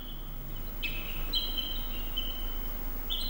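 Birdsong as a spring-themed vocal duet fades out: faint high chirps and a sustained whistling tone, with a few brief calls standing out over a low steady hum.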